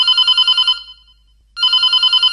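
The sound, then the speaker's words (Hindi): Telephone ringing with an incoming call: two loud bursts of rapid, warbling electronic trill, separated by a short silence. “Sir एक phone call आ रही है, जी जी ले लेते लेते हैं, स्वागत करते हैं।”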